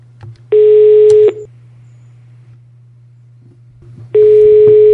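A telephone line tone sounds while a call is placed: two long, steady mid-pitched beeps separated by about three seconds of quiet, over a constant low hum.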